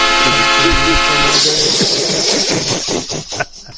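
A train horn sound effect blares as a sustained multi-tone chord for over a second, then gives way to a loud hissing rush with rhythmic pulses that fades toward the end.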